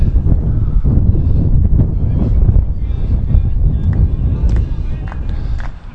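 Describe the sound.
Sudden gusts of wind buffet the microphone at a baseball game, making a loud, rough, low rumbling that persists throughout and eases slightly near the end.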